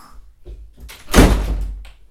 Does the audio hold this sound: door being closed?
yes